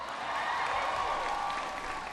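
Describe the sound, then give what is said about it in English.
Audience applause at a university speech event: a dense, continuous wash of clapping that stays loud and steady from start to finish. “Give Brian a big round of applause for the introduction.”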